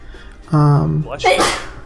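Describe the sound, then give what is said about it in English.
A single human sneeze: a short voiced, rising intake sound breaks into a loud, hissy burst, then fades quickly. “Bless you.”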